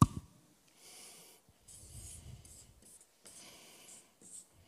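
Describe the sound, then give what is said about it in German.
Pen scratching across paper while a simple sketch is drawn, heard as several soft, raspy strokes of moderate length separated by short pauses, after a brief tap at the start. “Und wie gesagt, jetzt kommt hier meine zeichnerische Kunst. Ich mache es ganz einfach, um zu verdeutlichen, was ich meine.”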